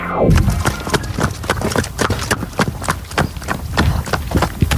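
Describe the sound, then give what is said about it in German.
A pony's hooves pound at a riding stable in a fast, steady rhythm. Many loud, sharp hoofbeats follow one another closely from start to end, heard alone. “Hörst du, in welcher Gangart unser Ronny Pony gerade läuft?”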